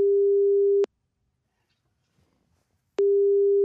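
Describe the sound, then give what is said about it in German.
Ringing tone heard while placing a telephone call: two identical steady, single-pitch tone bursts separated by about two seconds of silence. “Wir können sie ja direkt mal anrufen, oder?”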